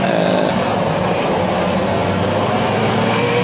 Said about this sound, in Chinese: 这边四台车赛道上开始斗车了